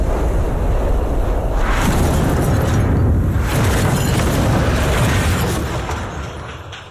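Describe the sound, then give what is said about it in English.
Bombs exploding across a city make a loud, continuous low rumbling roar with swelling bursts, fading away near the end. “They bombed the city.”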